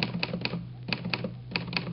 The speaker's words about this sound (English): I'll type it up for you right now on my Underwood typewriter.